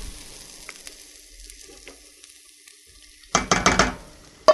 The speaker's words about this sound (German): nehme ich die Zwiebeln, die ich angeschwitzt habe, schön in ein bisschen Butter. Tue die jetzt da drauf.